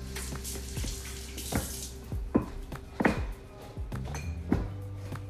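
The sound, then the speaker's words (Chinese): Water running from a tap while someone washes their hands at a sink, a soft, continuous splashing hiss broken by several light knocks and clatters, fairly quiet overall. “你没有用肥皂洗手， 没关系的， 好脏哦。”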